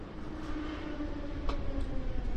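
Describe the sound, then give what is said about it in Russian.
A passenger train stopping at a station gives off a steady low rumble and hiss that stays even throughout, with a single faint click near the middle. “Поезд остановился на Садовой с Сенной Спасской, и народ повалил к дверям.”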